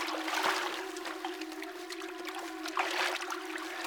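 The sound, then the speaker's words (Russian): Water sloshing and splashing as a man wades waist-deep and pulls a body toward the shore, a steady churning wash with a low hum beneath and a couple of louder surges. “Быков быстро входит в воду, зайдя по пояс, аккуратно тянет к берегу одну из тел.”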